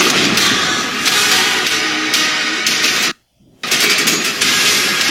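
Gunfire from a video game: dense, loud, rapid bursts of shots run almost without pause, broken by one brief moment of silence before the firing resumes.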